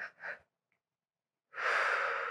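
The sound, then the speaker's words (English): A single soft, airy exhaled breath, taken as part of an energy-healing exercise, follows a few faint breathy sounds and a pause. It is quiet and steady, with no talk over it. “And then I'll use a little breath to set that into motion.”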